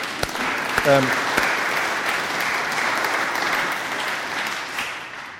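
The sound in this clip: An audience gives steady, dense applause for several seconds without pause. The clapping holds an even loudness throughout, and a brief voice rises over it near the start.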